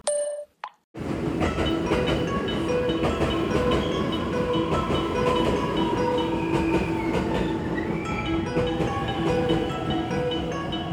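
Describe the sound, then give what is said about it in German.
A passing train ringing its bell: a loud, steady rumble and rail clatter with sustained tonal ringing layered on top. It starts abruptly after a brief quiet moment and runs without letup. “weil ich nun mal die Bahn kriegen möchte, die wirklich ununterbrochen bimmelt.”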